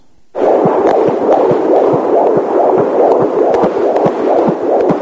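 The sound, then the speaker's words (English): Fetal heartbeat picked up by a Doppler heart monitor during pregnancy, starting abruptly after a brief silence as a loud, rapid, regular pulsing whoosh with a throbbing rhythm. “And that, my friends, is a Doppler recording of a heart monitor that doctors use to check out a baby's heartbeat during a mother's pregnancy.”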